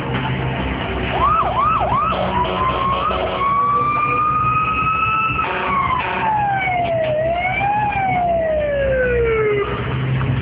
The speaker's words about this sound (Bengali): অ্যাম্বুলেন্সে ফোন দেওয়া হয়েছে, নিচে এসে গেছে ওরা।